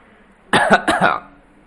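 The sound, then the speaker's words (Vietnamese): A light, dry cough from an elderly man, two quick raspy bursts in close succession that stand alone against near silence. “Nhẹ nhàng ho khan một tiếng, lão Edward”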